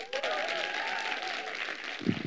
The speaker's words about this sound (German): Klatscht mal, herzliche Lydia